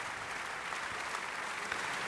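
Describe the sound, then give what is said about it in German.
Opera audience applauding a singer after a live performance in the Felsenreitschule, Salzburg: a continuous, dense wash of many hands clapping, even in level and unbroken, with no voices standing out. “Das ist der Applaus für Georg Nigel, der hier die Titelrolle gesungen hat.”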